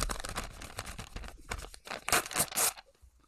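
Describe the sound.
An envelope is torn open at a mock awards show, giving a series of crisp paper rips that grow louder toward the end before stopping.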